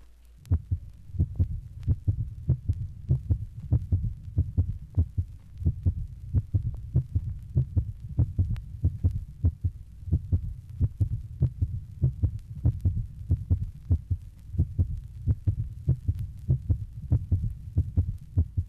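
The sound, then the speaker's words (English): Diastolic gallop heartbeat of congestive heart failure, heard at the mitral area: many steady, low, dull thumps in an even rhythm, with the extra gallop sound faint and not evident on every beat. “Number 19, diastolic gallop of congestive heart failure. The gallop sound is not easily heard with every beat. Mitral area.”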